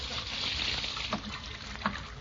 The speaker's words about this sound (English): I'm washing my hands.